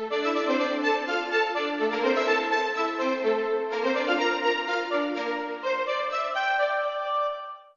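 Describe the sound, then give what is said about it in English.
An oboe melody is doubled by both violin sections playing staccato, giving a full, reedy-and-string blend of short, bright notes. The detached phrases run continuously at an even, moderate loudness, then fade at the close. “And that is being doubled by the violins, both the violin sections. And so together they all sound like this.”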